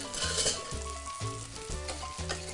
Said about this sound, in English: Just continue to press just very lightly against the surface of the bass. We don't want to squish it. We don't want to rip the skin. So we just gentle, steady pressure. It's going to help get a nice sear on the fish.